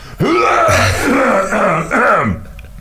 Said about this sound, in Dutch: voordat we eigenlijk beginnen babbelen, doen we altijd zo'n een klanktestje. Schrapen we de keel.